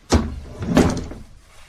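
A door sounds in two broad, fairly loud bursts about half a second apart, the first sharp and short, the second longer and trailing off into a faint tail.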